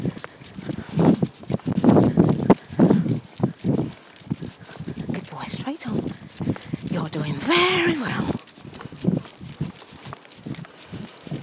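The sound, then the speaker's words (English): Footsteps walk steadily along Northfield Avenue, a street, giving many regular, crisp impacts that run through the whole clip; a voice is heard at times between and over the steps. “Walking down Northfield Avenue, and in a minute we'll turn into Edmund Road, and then we'll be back on Chelsea Road.”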